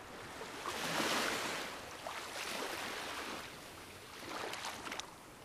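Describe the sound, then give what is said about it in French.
Ocean waves churn in a tumultuous sea, a broad rushing wash that swells and recedes in a few surges, with no voices. “Je m'en remets à l'océan, au tumulte des vagues, à la joie des éléments.”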